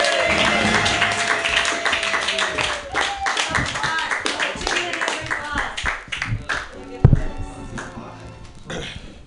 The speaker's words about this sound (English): Put your hands together for Ian Levy.